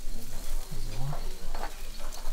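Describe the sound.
Bratwurst sizzles on an outdoor grill at a regional meat stand, making a soft, steady crackling hiss that runs throughout, with faint voices briefly audible underneath.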